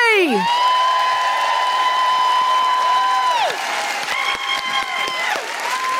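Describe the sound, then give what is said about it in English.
An audience applauds and cheers to welcome a stand-up comedian to the microphone, with loud, continuous clapping and sustained, gliding electronic tones ringing over the crowd. “Please put your hands together and welcome to the microphone, the incredible Julie J!”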